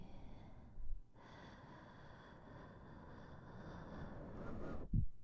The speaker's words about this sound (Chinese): 然后在放松的时候松开，对，就像这样，吸气，